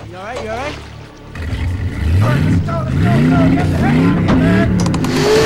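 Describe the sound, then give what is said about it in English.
A motorboat engine roaring as the boat speeds away, its pitch climbing and then holding loud and steady for several seconds, with a voice briefly heard at the start. “The intruders speed away, watched by Jarad and Bryce. The tattooed man is at the wheel.”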